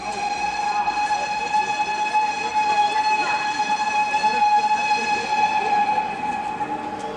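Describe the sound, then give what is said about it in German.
Railway sounds on a station platform with trains: a long, steady whistle-like tone holds throughout over a low rolling rumble of passing rail cars. “Ich stehe auf dem Bahnsteig.”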